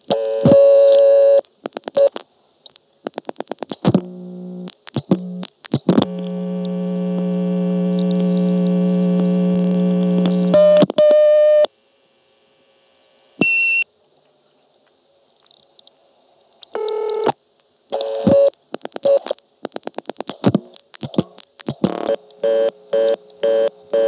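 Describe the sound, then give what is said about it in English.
Telephone exchange reorder tone and dialing on a call to a vacant number level: bursts of short dial tones and clicks, then a long steady droning tone that stops abruptly, a quiet gap, and further rapid tone bursts. “able to get the reorder tone from Cavite on tape as dialed from Marshfield, and here's how that was done.”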